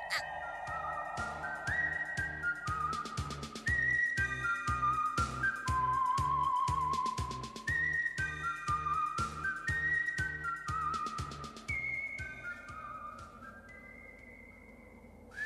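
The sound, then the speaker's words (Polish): A tune is whistled as a bright, wavering melody of held and sliding notes. It carries on steadily over a regular rhythmic beat in the background from start to finish. “szybko, zacznij gwizdać”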